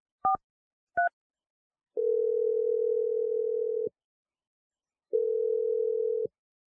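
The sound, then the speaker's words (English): Telephone line tones as a number is dialed: two short two-note keypad beeps, then two long, steady low tones of about two seconds each, separated by silence. “I'm going to dial her number right now if you feel ready.”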